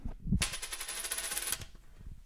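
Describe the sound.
A coin is flipped and lands, ringing with a bright metallic tone that holds for about a second before fading.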